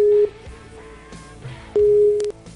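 Telephone call tone while dialing out into a conference call: two long, steady mid-pitched tones separated by a pause of over a second, fairly loud above a faint background.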